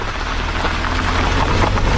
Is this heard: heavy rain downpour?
yes